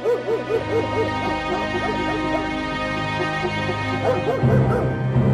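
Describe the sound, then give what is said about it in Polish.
A dog barks in the distance, giving many quick, yelping barks in a steady run over a constant low hum. “Od czasu do czasu słyszeliśmy z lewa szczekanie psa.”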